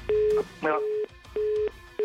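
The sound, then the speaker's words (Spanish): A telephone busy signal after dialing a call: a steady low tone pulsing on and off in even bursts, about four, with a brief warbling tone near the start. “Ahorita le voy a marcar a Fer y le voy a preguntar.”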